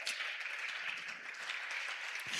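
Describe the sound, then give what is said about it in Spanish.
Steady, dense hand clapping from a church audience during an evening worship service, forming a continuous, loud wash of claps with no clear rhythm and no speech over it. “Vamos, aplaude al que es fiel. Aplaude al que es fiel.”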